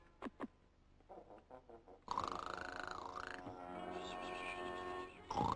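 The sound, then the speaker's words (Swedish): A person snores in an animated cartoon: a few soft, rhythmic breathy pulses, then a loud, drawn-out, wavering tonal snore that dips and rises in pitch, with another loud burst at the end. “Snarkar du en gång till så kommer jag att göra...”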